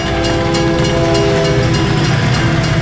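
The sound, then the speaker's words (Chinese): Loud, steady rumble and rattle of a train moving through a tunnel at a station, a continuous heavy roar with faint rhythmic clatter and no pauses or voices. “现在穿梭圣心车站的隧道后，期望看见的却只是存在脑海里的旧回忆。”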